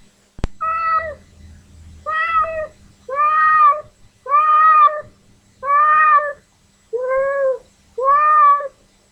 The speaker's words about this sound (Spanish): Este es un gato que espera su comida.